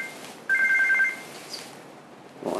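A telephone ringing with an incoming call: one loud, bright electronic ring tone holds steady for under a second, then only faint background noise remains.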